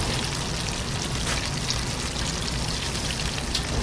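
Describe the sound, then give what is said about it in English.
Oysters frying in hot oil give off a steady, dense sizzle, a continuous crackling hiss that holds at an even level throughout with no voices. “I love the smell of oysters when they're cooking.”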